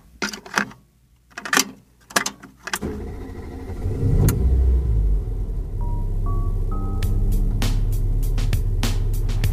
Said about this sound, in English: Sometimes it's cool, man. Just me and you out here driving around in the good old moon buggy